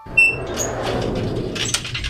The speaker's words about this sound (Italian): hanno chiuso la porta! Non possiamo più entrare!